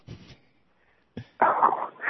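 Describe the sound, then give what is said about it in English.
A dog in a caller's room, heard over a telephone line, makes a few short, soft vocal sounds, falls quiet briefly, then gives a louder, rough burst. “And hi to your dog.”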